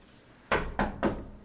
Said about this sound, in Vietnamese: sau đó hắn khẽ gõ cửa.